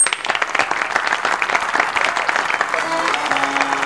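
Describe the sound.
An audience applauding to welcome a performer, a dense, steady wash of clapping that holds at an even level throughout.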